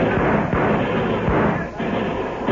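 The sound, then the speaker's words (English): Gunfire in a Western radio drama battle, homesteaders and cattlemen firing on Texas raiders: a loud, dense roar of shots with a few heavier thuds standing out, sustained without a break. “Tell the homesteaders and cattlemen to open fire. Right now. Now, boys! Open fire on those Texas killers!”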